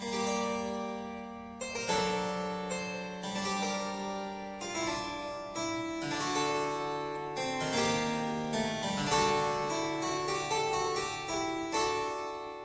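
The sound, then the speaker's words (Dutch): Sixteenth-century music, sweet and gentle, unfolds as a steady stream of crisp notes that ring and fade, with soft sustained tones underneath, moderately quiet and without voices. “Het klinkt zo liefelijk, die muziek uit de 16e eeuw.”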